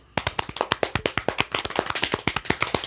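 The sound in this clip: Many rapid, even taps on a person's stomach imitating a drum roll, keeping a steady quick pulse of sharp, fairly loud hits that continue without talk.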